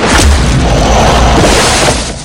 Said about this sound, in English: Chance somersaults over flaming barrels, then lands and fires a shotgun blast, flinging Fouchon backwards.